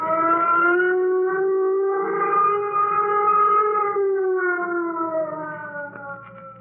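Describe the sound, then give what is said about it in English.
A flight warning signal siren wails as one sustained, loud tone that rises slightly and then slowly sinks in pitch, fading a little toward the end. “Sound flight warning signal. Sound flight warning signal.”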